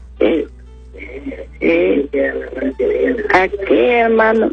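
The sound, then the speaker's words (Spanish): A radio plays loudly behind a phone caller, its voices and sound coming through in uneven bursts over a steady low hum on the line. “Tesoro de Dios, le puede bajar el volumen a su radio.”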